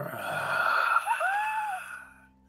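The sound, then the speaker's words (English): An eerie moaning in the mist, imitated by a voice: a sustained, breathy, wavering moan, then a brief higher tone that rises and falls before the sound fades away. “Clem, you hear in the mist, it's like moaning.”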